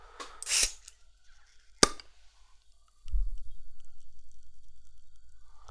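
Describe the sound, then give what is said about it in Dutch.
A flip-top pull cap comes off a bottle of Bundaberg passionfruit drink: a rustling burst, then a sharp pop, then a long run of rhythmic low pulses. “Ik ga het eh, flesjes openen. Het is natuurlijk Boenderberg, dus het zit in een flesje met zo'n gekke trekdop erop.”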